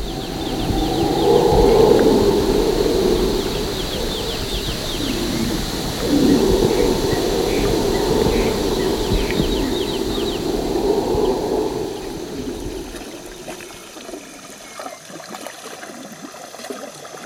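Jungle at night, heard from hammocks on a rain-free night: a dense, steady chorus of animal and bird calls layered over high insect-like buzzing. It stays loud and continuous, then thins noticeably after about thirteen seconds.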